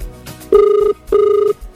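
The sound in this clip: Telephone ringing as a radio host calls a prize winner: two short, evenly spaced ring tones, each a steady buzzing pulse separated by a brief gap, loud and clear.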